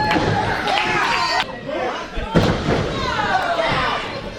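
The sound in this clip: A wrestler is slammed onto the mat during a professional wrestling match. A heavy, booming thud bursts out of constant crowd chatter and noise, with a few smaller impacts around it.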